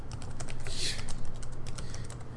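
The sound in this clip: Rapid, soft keystrokes on a computer keyboard as a web search is typed, a steady run of light clicks over a low background hum.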